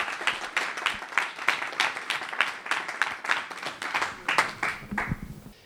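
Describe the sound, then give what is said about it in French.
An audience claps after a talk at a science event, a steady patter of many hands that holds at moderate loudness and tapers off at the end. “Sous vos applaudissements,”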